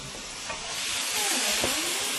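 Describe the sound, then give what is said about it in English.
Mushrooms frying in a pan make a steady, bright sizzle and hiss, with soft stirring scrapes mixed in throughout. “I love cooking these mushrooms in your pan here. They look beautiful.”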